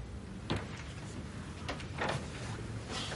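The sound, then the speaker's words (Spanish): A door is closed slowly, with a few faint, soft knocks and rubbing sounds spread over a few seconds against a quiet background. “Cierra la puerta lentamente.”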